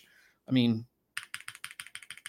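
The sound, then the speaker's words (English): Rapid keystrokes on a gasket-mount keyboard with a large silicone dampener in its base and multiple dampening layers. A short vocal sound comes first, then a steady run of muted, evenly spaced clacks. “we have that gasket mount design. You have a big silicone dampener in the bottom, plus multiple dampening layers. I mean, you can see how many layers this keyboard has. You have quite a lot there. So the sound is really good.”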